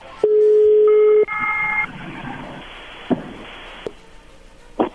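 A telephone number is dialed: a long steady tone gives way to short tones and clicks of dialing, followed by faint line noise and a couple of sharp clicks.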